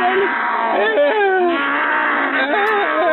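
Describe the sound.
A person imitates a lion's roar with a loud, drawn-out, moaning vocal tone that slides up and down in pitch. The sound stays steady in loudness from start to finish.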